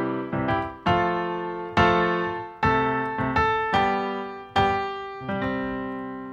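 A I-V-vi-IV chord progression is played on an instrument as many struck chords, each ringing out and fading before the next. The rhythm is uneven, with some chords in quick succession and others held longer.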